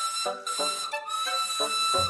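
A steam locomotive whistle from an old, unusually shaped, coffee-pot-like engine with a red boiler: a shrill, sustained multi-tone blast that holds fairly steady throughout with slight wavers, heard alone.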